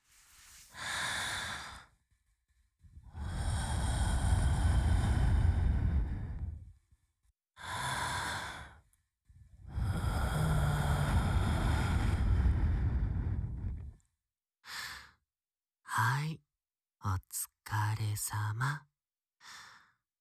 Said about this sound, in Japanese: あ、息吹きかけるからびっくりしないでね。